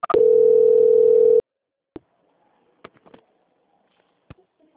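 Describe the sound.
A steady telephone tone plays while a call is transferred: one loud, unbroken mid-pitched tone for a little over a second, then it cuts off into near silence broken by a few faint clicks.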